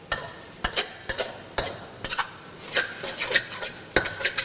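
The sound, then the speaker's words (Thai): A spatula gently stirs stir-fried noodles in a pan, making repeated scraping and rubbing strokes in an uneven rhythm over a soft sizzle. “เทคนิคง่ายๆไม่ให้เส้นขาดก็คือจับตะหลิวเนี่ยครับลงแล้วค่อยๆ คนอย่างนี้นะฮะเพื่อที่จะไม่ให้เส้นติดกัน”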